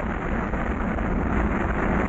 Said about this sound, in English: 5, 4, 3, 2, 1, 0. All engine running. Liftoff. We have a liftoff. 32 minutes past the hour. Liftoff on Apollo 11.